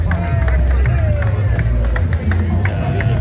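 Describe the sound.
A street crowd cheers, claps and chatters as marchers pass through a Dutch town during the multi-day Nijmegen walking march. The lively hubbub stays constant and loud, with scattered claps and footsteps mixed in.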